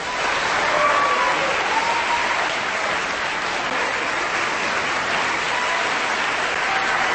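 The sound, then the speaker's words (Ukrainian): Audience applause for a pianist in the chamber hall of a New York concert venue: a dense, steady wash of many clapping hands that stays loud and even from start to finish. “Ось такими аплодисментами зустрікали у камерній залі Нью-Йоркського Карнегі-Холу випускника Білоруської консерваторії, колишнього соліста Мінського симфонічного оркестру, піаніста Юрія Блінова”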